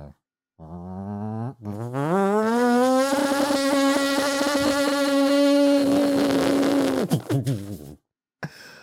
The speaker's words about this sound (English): Oh, those plants look a little, you know, overgrown. Let's get the old strimmer out.